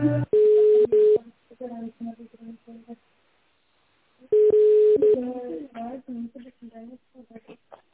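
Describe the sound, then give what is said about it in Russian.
Telephone line tones while a call is being connected: two long, steady, mid-pitched tone bursts separated by a gap, with speech between and after them. “Сейчас соединяю.”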